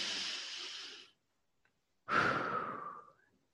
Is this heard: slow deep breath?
yes

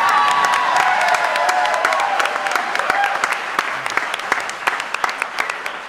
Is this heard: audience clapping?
yes

